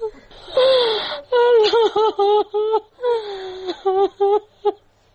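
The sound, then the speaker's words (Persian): A woman cries, a mother grieving two daughters killed in a car bombing in western Kabul. She sobs and wails in a series of broken, high, quavering bursts, each falling in pitch, with sharp gasps between them. “این صدای گریه مادر نگینه و زحل، دو دختری که هفته گذشته در انفجار موتر بمبگذاری شده در غرب شهر کابل جان باختند.”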